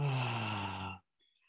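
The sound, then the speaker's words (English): A single voiced exhale out through the mouth during a group breathing exercise, like a long, soft sigh lasting about a second before stopping abruptly into silence. “So everybody take a deep breath in through the nose. Let it out of the mouth.”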